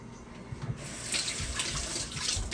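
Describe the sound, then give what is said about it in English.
A kitchen tap runs water while a cucumber is washed beneath it, giving a steady splashing hiss with small shifts in the flow. No voices are heard. “you found a cucumber. Let me wash it for you.”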